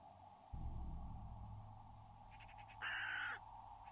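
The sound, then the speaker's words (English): A raven calls from the trees: a short series of faint rasping notes, then one loud, harsh, drawn-out caw. A steady low rumble runs underneath throughout. “See, there's another raven up in the trees.”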